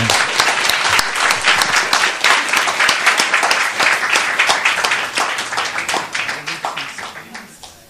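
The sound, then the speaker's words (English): Loud audience applause welcoming a magician at a lecture gathering: many dense, crisp claps in a steady patter that tapers off over the final second. “So we will request Madhu Chanda with a massive round of applause.”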